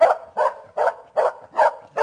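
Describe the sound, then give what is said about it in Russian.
A customs sniffer dog barks sharply at a person: six loud, mid-pitched barks, evenly spaced and alone, each with a short ragged tail. “Однажды он унюхал предметы старины в кармане у лейтенанта таможенной службы Зверева и поднял такой лай”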